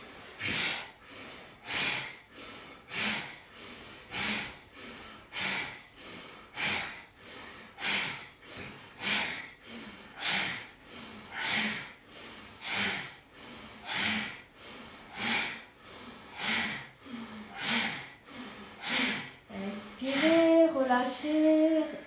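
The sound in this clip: Bhastrika yoga breathing: many forceful, rapid breaths in a steady, even rhythm, each a loud, airy rush with no talk between them.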